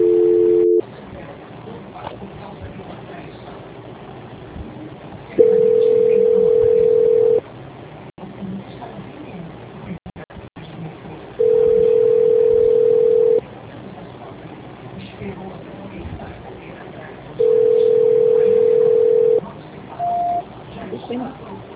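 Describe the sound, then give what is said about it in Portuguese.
Telephone line tones sound during a call transfer: a short tone opens, then three long, steady, identical beeps of about two seconds each recur at even intervals over a faint, muffled line hiss. “eu vou transferir o contato para o controle de qualidade, que vai dar continuidade à contratação do consignado, tá bom? Tá. A ligação vai ficar muda, mas a senhora permanece na linha. Tá. Obrigada. Transferência.”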